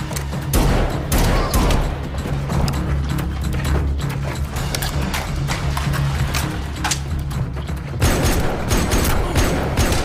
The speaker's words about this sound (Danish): Og vi skal lige høre et kort klip fra kapitel 2 fra 2017. Det er en skydescene i katakomberne i Rom, hvor John Wick han er på en særlig opgave.